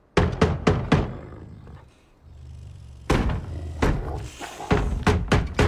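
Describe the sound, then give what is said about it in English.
A cane knob pounds against a wooden wall around a small yard. Loud, hollow knocks come in two bursts separated by a low rumbling lull, with the later blows more irregular and several in quick succession. “Smith pounds the knob of his cane on the other side of the wall”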